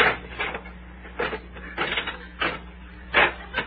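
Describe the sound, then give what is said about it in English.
A slot machine lever is pulled, setting off a series of clattering mechanical clunks and ratchety whirs in separate bursts, rattling much like a cash register. “Hey, this is a slot machine.”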